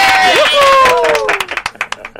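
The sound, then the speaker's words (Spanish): A small group in a studio applauds a guest. After a spoken introduction comes a short run of uneven, separate hand claps that thin out toward the end. “Un aplauso para Agustín Peñalver.”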